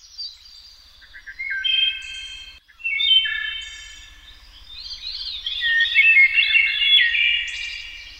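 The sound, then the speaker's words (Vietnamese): A flock of birds sings and chirps at summer midday, many high, bright twittering notes and trills overlapping continuously. The chorus drops briefly near the middle, then swells and stays fairly loud to the end. “Những tiếng hót du dương hay ríu rít khác nhau của bầy chim phá tan đi bầu không khí tĩnh mịch của buổi trưa hè”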